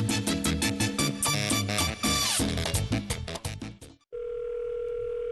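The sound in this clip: Outgoing phone call tone: a steady, unbroken electronic dial tone cuts in sharply right after loud music stops and holds evenly for just over a second until the end.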